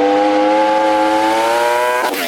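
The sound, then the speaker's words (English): A Ducati track-based, street-legal sports motorcycle engine revs in a loud, sustained drone whose pitch climbs slowly and steadily, with no voices over it. “It's like a racing bike. Yeah, it's track-based, but it's street legal, so... All right, here we go. Oh, my God. You can hear it like a mile away.”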